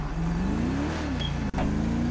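Engine drone from a car being driven in a video game: a steady low hum that rises slightly in pitch, broken once by a brief dropout before resuming, with no speech.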